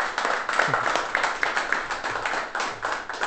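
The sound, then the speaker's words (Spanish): Audience applause at a public forum on workers' self-management: dense, steady clapping from a live crowd that carries through the whole clip at an even level without a clear fade. “También lo invito a un aplauso.”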